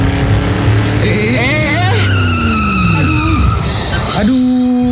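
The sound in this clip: A car speeding on a toll road, its tires squealing in a long skid with wavering, whining tones that slide downward. The sound stays loud and continuous throughout.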